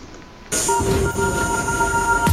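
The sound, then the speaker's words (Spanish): A metro train at the Guadalupe station in Mexico City comes in with an abrupt steady roar, under high sustained whining tones from motors and wheels that hold throughout. “vámonos al Metro Guadalupe”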